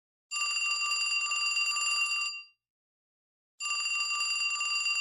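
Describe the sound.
A telephone ringing as a call is placed: two long, bright, bell-like rings with a silent pause between them, alone with no voices.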